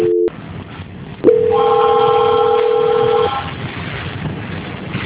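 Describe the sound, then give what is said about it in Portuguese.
A telephone line tone during a call transfer: a short tone, then a gap of line hiss, then a long, loud, steady tone lasting about two seconds with higher tones joining, before fading into faint line noise. “Tá, só não desliga, vou estar transferindo a ligação. Transferência.”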